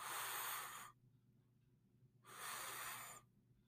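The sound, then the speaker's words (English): Two deep inhales through the nose during a guided breathing exercise, each a steady, airy rush lasting about a second, separated by a quiet pause. “So two deep inhales through your nose.”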